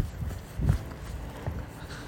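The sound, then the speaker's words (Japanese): Hurried footsteps of someone running across a pedestrian crossing: a few soft, irregular thuds, one slightly heavier than the rest, fairly faint over low background noise. “ちょっと今ね横断歩道渡ってます、えー、ちょっと走ってますね”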